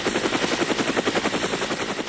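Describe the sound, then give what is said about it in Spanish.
A helicopter's rotor beats in a fast, steady chop with a thin, constant high whine above it, heard alone at an even level. “Helicóptero.”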